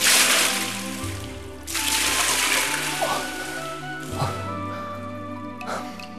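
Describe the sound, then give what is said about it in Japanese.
Hot water poured over a person sitting in a bath, heard as two loud bursts of splashing, gushing water. “お湯をおかけいたします。”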